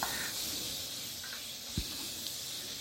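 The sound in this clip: Meat frying in a pan for a Philly cheese steak, cooked through: a steady, even sizzling hiss throughout, with one brief low knock partway.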